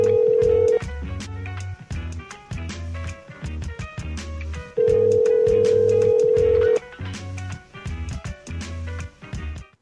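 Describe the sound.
An unanswered telephone call rings out with two long, steady ring tones, the second starting about four seconds after the first. A rhythmic, beat-like pattern runs underneath throughout.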